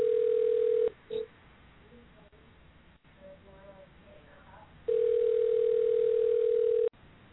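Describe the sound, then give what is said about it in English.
Ringback tone of an outgoing surprise phone call: two steady, mid-pitched telephone tones. The first is cut short at the start and the second lasts about two seconds, with a quieter stretch of faint murmur between them. “We're going to make a surprise call.”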